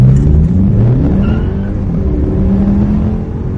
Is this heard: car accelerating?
yes